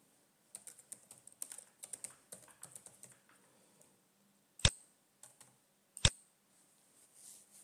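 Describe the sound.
Computer keyboard keys tap in a quick, irregular run as an email address is typed into a website login form. After a pause, two sharper, louder clicks follow.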